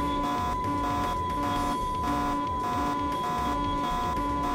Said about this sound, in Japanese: この警告が鳴りまくった状態でさ着陸するのもなんかあれだよね。